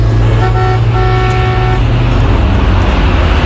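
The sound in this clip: A car drives along a road with a loud, steady low engine and road rumble throughout, and two sustained horn-like tones sound early on.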